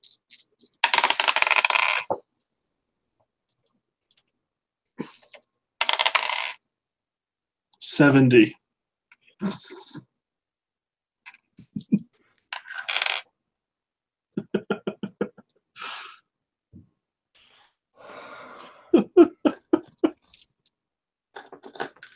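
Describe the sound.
Dice rattling and clattering on a table during a Call of Cthulhu tabletop role-playing game: several separate bursts of sharp clicking, with people talking in between.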